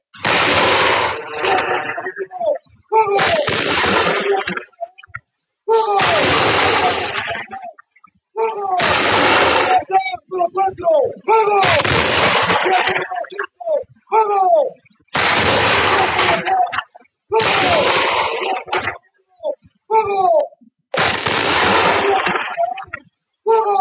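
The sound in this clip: Gunfire at an army school after a command to fire: many loud, harsh bursts of shots, each lasting about two seconds, separated by brief silent gaps in a fairly regular rhythm.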